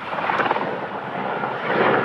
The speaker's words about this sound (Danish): tager os med op i helikopteren til et overblik over situationen.